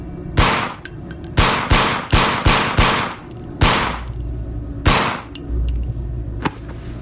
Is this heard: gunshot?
yes